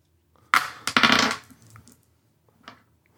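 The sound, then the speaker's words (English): Five dice rolled during a tabletop role-playing game: a quick burst of clattering clicks as they tumble, then a few faint taps as they settle. “So I roll four dice or yeah. No, five dice? Roll five dice.”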